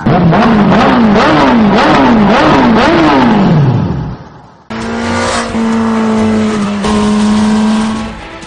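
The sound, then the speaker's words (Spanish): A Suzuki GSX-R1000 sport motorcycle engine revs hard and loud in a quick series of rising bursts, then one long rev that falls away, followed by a steady high engine drone. “La Suzuki GSX R1000, una motocicleta que ha redefinido lo que es una moto deportiva.”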